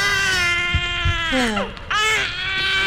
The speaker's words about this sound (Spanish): Bueno, voy a atender ese pelado que es que llora mucho.